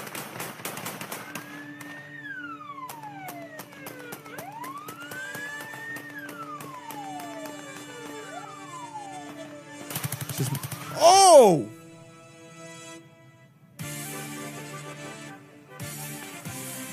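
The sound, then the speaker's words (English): Guns fired into the air at a Russian Chechen wedding: a dense burst of rapid shots midway and another rattling stretch later, set against wailing, sliding siren-like tones and steady background noise. “Just shooting guns in the air. Fully just shooting guns in the air.”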